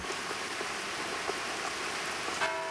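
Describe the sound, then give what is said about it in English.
Steady rain falls around a person holding an umbrella. The hiss is dense and even, with faint scattered drop patters and no voices. “Laura stands in the rain holding an umbrella above her head”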